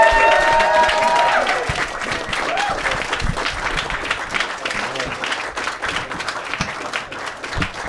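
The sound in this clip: Sustained audience applause for a guest at a comedy show: a dense wash of clapping, loudest at the start and easing slightly over about eight seconds, with faint voices mixed in.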